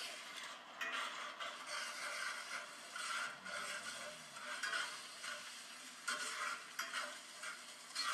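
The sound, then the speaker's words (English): A wooden spatula stirs eggs in a pan, giving soft, continuous scraping strokes over a faint sizzle. The sound is quiet and steady throughout, with repeated brushing sweeps. “Then you're going to take the wooden spatula and just move around the eggs in all different directions.”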